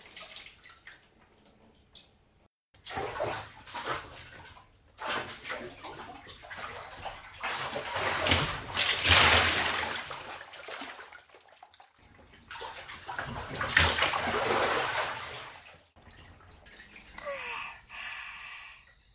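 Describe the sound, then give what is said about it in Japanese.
Hot bath water splashes and sloshes as someone soaks, in intermittent bursts separated by brief quiet gaps. “一緒にゆっくりお湯に浸かろう。”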